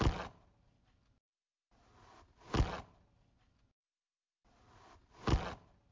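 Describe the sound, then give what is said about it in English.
A knife cuts through something on a wooden cutting board in three separate strokes. Each stroke is a short rasping slice ending in a sharp woody knock, with silence between them. “This is cutting something with a knife. You think it's a knife on what? Like a cutting board? Yeah, I think it's a knife on a wooden cutting board. Cutting through.”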